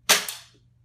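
A single sharp pop from a toy dart gun fired to yank out a child's loose tooth, with a quick bright attack and a short decaying tail, heard alone.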